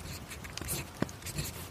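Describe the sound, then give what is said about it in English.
A pen dipped in ink scratches across paper in a few faint, quick strokes, with one sharper tick partway through, all soft and close to silence. “You're right. Someone is writing.”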